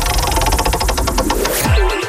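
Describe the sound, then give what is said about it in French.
Rapid ticking of a prize wheel being spun at a sports-themed giveaway, a fast even run of many clicks lasting about a second and a half before it stops. “Je tourne la roue, ça c'est important.”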